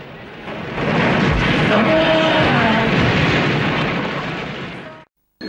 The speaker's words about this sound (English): The fuel pumps explode in a huge fireball, throwing Diggs and Sorensen to the ground and demolishing Marvin's Motown Motors.